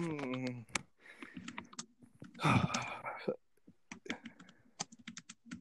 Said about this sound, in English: Really, you're gonna just type it?